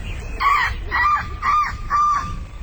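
A large gull calls four times, giving harsh, honking cries that are loud and evenly spaced over a low background rumble.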